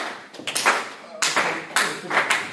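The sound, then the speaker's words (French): An audience applauds on request during a talk, heard as a few short, fairly loud bursts of clapping separated by brief gaps. “Donc allez-y, applaudissez. Applaudissez.”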